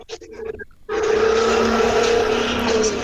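Motorcycle engine heard over a phone line in a room: after a brief quieter stretch of faint tones, a loud, steady, buzzing drone with a low harmonic hum sets in and holds to the end.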